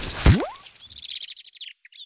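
A blackbird calls while pulling an earthworm. A soft thump and a quick rising sweep lead into a fast chattering run of many high, thin chirps, and a couple of short notes trail after a brief gap.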